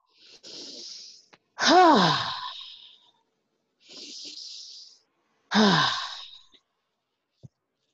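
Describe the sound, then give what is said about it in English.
Two slow, deep cleansing breaths during a guided relaxation, each a soft hissing inhale followed by a long, voiced, sighing exhale, with a faint click at the end. “Take a few more deep breaths, I'd say about two or three, big cleansing breaths”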